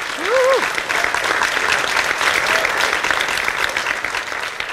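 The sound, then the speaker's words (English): Applause from a live show audience, a loud, even wash of many hands clapping, with a short whooping cheer near the start, easing off slightly at the end. “Thank you for clapping.”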